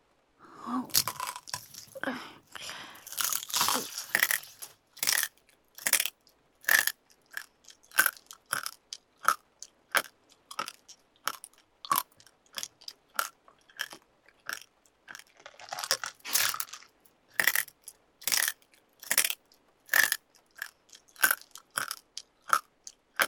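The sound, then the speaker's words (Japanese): Bones being crunched and chewed, snapping like twigs: many sharp, crisp bites and grinding chews in a fairly regular rhythm with short pauses, clear and alone. “まだお腹空いてて、骨食べるの止まんない。”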